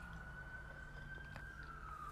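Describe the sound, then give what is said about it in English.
Police sirens outside an open house window, heard faintly as one steady high wailing tone that slowly drifts lower in pitch over a constant low rumble. “I'm here at my house with my window open because it's a nice day. So if you hear all the police sirens and shenanigans outside, I apologize.”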